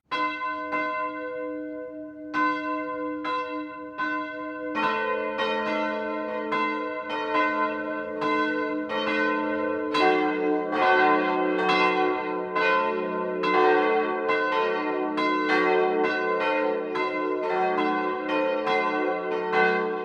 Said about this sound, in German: Das Mittagsläuten kommt heute aus dem niederbayerischen Staudach, das zum Markt Massing gehört.